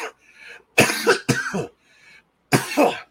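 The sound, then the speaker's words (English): A person coughs a few times in harsh, loud bursts. The bursts come in short clusters, and quieter throat sounds and brief silences fall between them. “I'm going to have to deal with a little bit of coughing today.”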